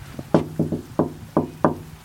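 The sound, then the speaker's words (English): Knuckles knock on a townhouse door, a former children's home whose doorbell is out of order: several sharp, resonant raps in an uneven rhythm, fairly loud and with no talking. “Knocking on windows and doors, trying to get people to open them.”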